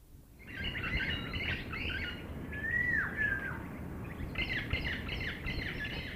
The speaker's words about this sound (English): An aviary is an ideal environment not only to see birds, but to hear them as well.